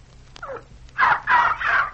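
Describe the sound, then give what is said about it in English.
A dog yelps while running around holding up its paw, performing a trick of acting hurt. Three sharp, high-pitched yelps come in quick succession, preceded by fainter, smaller cries. “Then when I give the signal, he starts running around yelping and holding his paw.”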